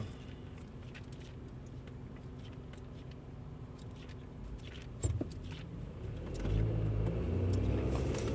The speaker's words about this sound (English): I'm driving right now, so I'm trying to, I have to wait because I was at a stoplight.